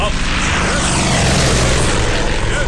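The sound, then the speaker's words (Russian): A training airplane performs aerobatics in the sky, its engine a loud, dense, continuous roar that stays steady throughout with only slight swells. “В небе учебный самолет выполняет фигуру высшего пилотажа.”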